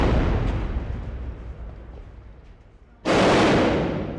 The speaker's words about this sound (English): The regime is pounding the rebels with artillery shells that are exploding just down the block.